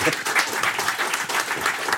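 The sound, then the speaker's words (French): Applause from an audience: dense, steady clapping that runs evenly through the short moment, fairly loud, with no voices standing out. “on l'applaudit”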